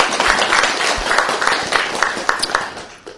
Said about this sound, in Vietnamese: Chúng ta đang vỗ tay hồn hồ chư vị đồng tu trong những ngày qua.